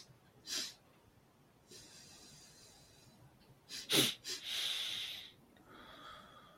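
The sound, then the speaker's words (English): Nasal breathing in a Taoist double breath qigong exercise: two quick, sharp sniffing inhalations through the nose, then a longer, breathy, hissing exhalation, among other soft breaths. “what we call the Taoist double breath. Mm-hmm. So this is inhalation. It's two inhalations to one exhalation.”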